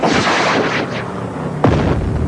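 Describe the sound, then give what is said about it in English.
A flare gun is fired, giving a sharp boom partway through over loud, continuous rumbling noise that fills the whole clip. “Get the flare gun!”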